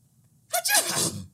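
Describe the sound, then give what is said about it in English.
A person imitates a dog's sneeze-cough: one breathy, exhaled burst lasting under a second, half sneeze and half cough, heard alone with no talk. “it's what we call a snoff, because she has like a sneeze cough.”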